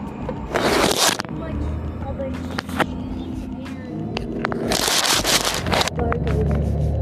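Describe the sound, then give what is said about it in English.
Paper rustles and crinkles while a phone is repositioned, in three bursts of broad scraping noise separated by quieter stretches, with low voices faintly underneath. “sorry about the ruffling of paper there. I was repositioning the phone”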